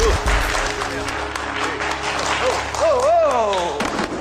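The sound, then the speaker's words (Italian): Applause rises amid a rap track, a dense crackling wash of clapping that holds fairly loud for the whole stretch while a voice and music carry on over it. “Ma che è sta applauso?”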